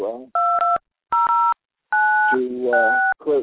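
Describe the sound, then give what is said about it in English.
Telephone keypad dialing tones: a few steady, high dual-tone beeps separated by short silences, with a voice heard briefly at the start and end. “to create some ringtones, as you just heard in the background”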